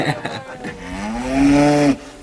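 A cow moos once, a long, loud, low call that swells and bends upward in pitch before cutting off sharply, after some brief low thumps and rustling at the start.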